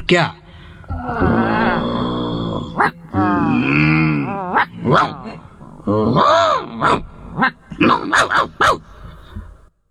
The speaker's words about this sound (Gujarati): ઘૂરક્યા, એકબીજાને ઘૂરકીને સામ સામે ભસવા લાગ્યા. ભસવા લાગ્યા અટકે જ નહીં, અને ભસતા ભસતા એ લોકો ઝઘડી પડ્યા.